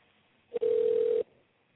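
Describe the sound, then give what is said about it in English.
A telephone dial tone sounds as a call is placed: one steady, even, mid-pitched hum lasting about half a second. A brief blip comes just before it, and the line goes quiet afterward. “we're going to get my man Khalid on the phone.”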